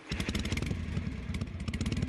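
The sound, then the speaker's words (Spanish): Motorcycle engine revving as the rider gives it a little throttle before setting off by road, a loud, throbbing low rumble that pulses steadily for the whole moment with no pause. “Un poquito de gas con nuestra moto, nos ponemos los cascos y partimos.”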